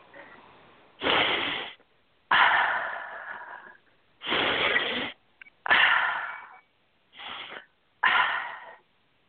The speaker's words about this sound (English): Take a nice deep, deep breath.